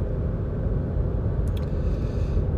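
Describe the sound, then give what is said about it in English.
A car driving along an empty road, heard as a steady, low rumble of engine and road noise that stays even throughout, with no voices. “I'm driving. I'm on my own here on the road.”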